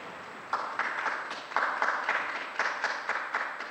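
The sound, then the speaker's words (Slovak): Applause from a crowd in Rome greeting a newly beatified person: a dense, sustained patter of many hands with several sharper surges, no voices over it. “Jeden potlesk pre nového blahoslaveného.”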